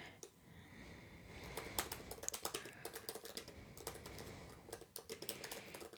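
Typing on a computer keyboard as one sentence is written: a steady, rapid clatter of many keystrokes with small bursts and brief pauses, no talking.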